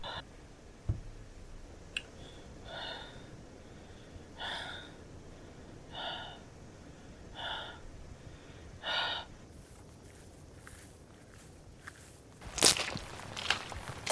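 Footsteps of people walking back, quiet and evenly spaced, with several soft steps about every second and a half over a low steady hiss. A sharper, louder burst comes near the end.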